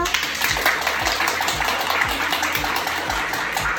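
Audience applause at a live public recording: dense, steady clapping throughout, with regular low thumps underneath.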